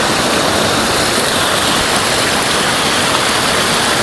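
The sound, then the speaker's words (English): Flowing water close by: a loud, continuous rush that stays steady from start to finish with no breaks. “I think maybe I need to be a bit closer to the water here and then look up.”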